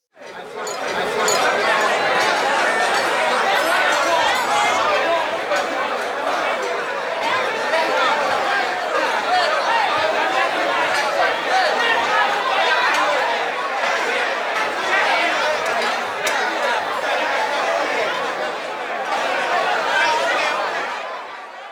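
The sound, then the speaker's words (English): Steady, busy chatter fills a bustling contemporary restaurant, with many overlapping voices and bursts of chuckling and laughter that hold loud and constant throughout. “It was, of course, the oh-so-dulcet tones of a contemporary busy restaurant, a sonic lullaby that amplifies profitability.”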